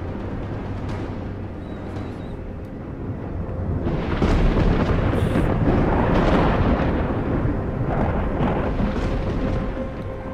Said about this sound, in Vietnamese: Nó và tia sét đầu tiên giáng xuống, đập mạnh vào nhau, nổ đùng đùng lên đinh tai nhức óc.